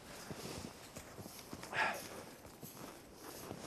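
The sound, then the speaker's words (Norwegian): Footsteps push through knee-deep snow on an islet in Lake Mjøsa after a crossing over the ice, many soft, muffled steps falling in a steady walking rhythm at a fairly faint level. “Nå går vi i dyp snø her, opp til knærne.”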